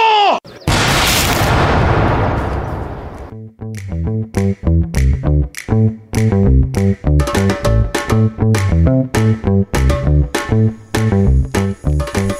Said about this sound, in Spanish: ¡Apunten! ¡Fuego!